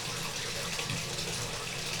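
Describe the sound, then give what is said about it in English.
Water runs steadily from a tap in a continuous, even hiss with no breaks or change in level, heard on its own. “Let me turn off the water here. Oh, there we go.”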